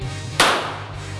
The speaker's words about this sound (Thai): หลังจากที่เรียนรู้วิธีการจับปืนและท่าทางที่ถูกต้องแล้วนะครับคราวนี้มายิงปืนจริงกัน